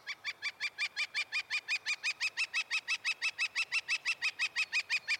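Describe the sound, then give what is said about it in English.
A northern flicker woodpecker calls in a long, rapid series of nasal, evenly spaced notes, about five per second, holding a steady rhythm and loudness throughout. “That's the sound of a northern flicker, a brownish woodpecker, larger than a robin, smaller than a crow, with a black crescent bib and spotted belly”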